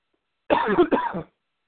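A person coughs and clears the throat in two quick, rough bursts, each fairly loud. No talk runs over them.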